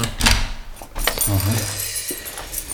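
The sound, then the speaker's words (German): Keys jangle and click as an office door is locked, giving a few bright metallic clinks and rattles spread over about three seconds. “Ich muss erst mal mein Büro abschließen.”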